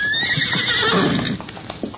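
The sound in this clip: A pony whinnies with a loud, high, wavering neigh, followed by a few soft hoof clops.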